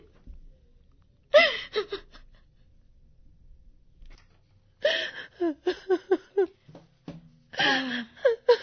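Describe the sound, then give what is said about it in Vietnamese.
A mother cries in short, gasping, whimpering sobs that come in bursts separated by quiet pauses. “Có chuyện gì mà má khóc vậy?”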